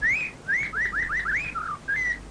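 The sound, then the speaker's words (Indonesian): Magpie robin song: a quick run of about eight clear whistled phrases, mostly short upward-sweeping slurs, with a lower note near the end. The bird sings loudly and alone. “Oh, kau murai.”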